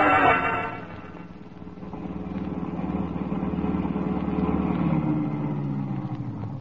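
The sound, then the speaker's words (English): Car engine as a car pulls up and parks outside an apartment house: a steady motor hum that dips briefly, then swells and holds at a moderate level throughout. “I'm at Quinn's apartment house now. I pull up and park. As I turn the motor off, a guy steps out of the shadows and points with a gun.”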